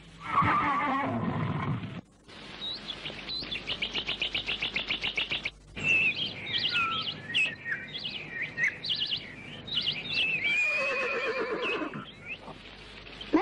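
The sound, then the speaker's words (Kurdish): A horse whinnies loudly at the start with a shaky, falling pitch. High chirping bird-like calls follow, and a second whinny comes near the end. “ئەو ئەسپی خۆمانە ئازارتان نادا”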